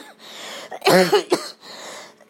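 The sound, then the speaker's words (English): A person with a lingering cough, lying down and having trouble breathing, gives a couple of short harsh coughs in the middle, with quiet breathy noise before and after. “I took my inhaler, for my cough that's slowly going away.”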